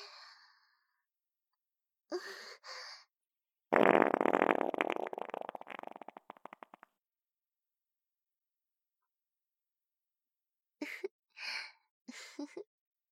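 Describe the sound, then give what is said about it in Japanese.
A fart through spandex leggings: one long, loud, rasping and sputtering burst of about three seconds that breaks into stuttering pulses as it trails off, with quiet breathy sounds before and after it. “出ましたね。おなら。”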